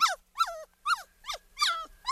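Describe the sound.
A small pet dog at the vet makes a series of short, high-pitched whiny vocalizations in separate bursts with brief pauses between them, loud and alone with no talking.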